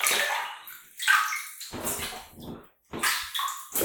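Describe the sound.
Water splashing as someone is washed down before getting into a bath, heard as a few bursts of sloshing and pouring separated by a short pause.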